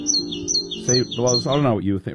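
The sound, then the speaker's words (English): Great tit calls: a few high, thin chirps repeat at the start, then a person's voice begins talking and quickly covers them. “A famous saying about great tits is that if you hear a bird call you don't recognise, it is probably a great tit.”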